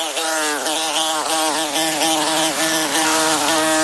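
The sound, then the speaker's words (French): Continuous buzzing of a wasp of the kind that spoils a meal: a loud, steady drone with a slightly wavering pitch that runs throughout, with no voices. “Vous le détestez ce bruit. Ce bruit de guêpe qui vous gâche un bon repas.”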